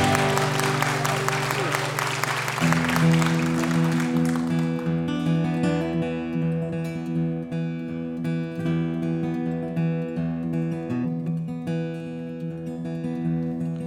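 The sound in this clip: Audience applause welcomes a folk singer at a grassroots music radio show. A loud wash of clapping fills the first four seconds over instrumental music, then fades and the music carries on alone.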